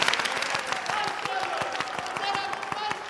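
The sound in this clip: An audience applauds in honour of the minister with quiet, steady clapping throughout, and a voice carries on over the clapping.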